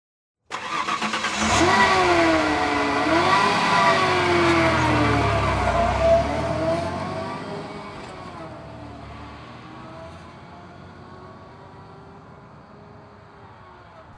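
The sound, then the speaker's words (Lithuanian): A Ford Ranger pickup's engine starts abruptly and runs loud and rough, its pitch wavering up and down for several seconds before settling into a quieter, steadier running drone. “Na, o prieš tai per ausinės kviečiu pasiklausyti Ford Ranger variklio.”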